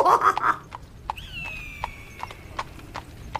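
Horse hooves clip-clopping in a steady walking rhythm, many crisp, hollow knocks evenly spaced over a soft, quiet background.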